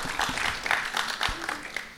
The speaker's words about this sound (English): Okay, some applause.